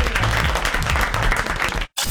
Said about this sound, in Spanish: Bravo, el aplauso. Bravo. Bien grande.